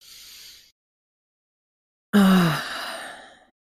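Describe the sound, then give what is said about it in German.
A deep breath in and out during a guided relaxation: a soft, airy inhale of about half a second, a pause, then a louder, slightly voiced sighing exhale that trails off over more than a second. “lass uns mal gemeinsam durchatmen. Schließ gern die Augen dabei. Einmal tief Luft holen.”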